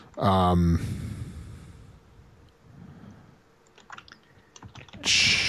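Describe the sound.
Quiet typing on a computer keyboard: a short run of faint scattered key clicks sits between louder bursts of other sound at the start and end.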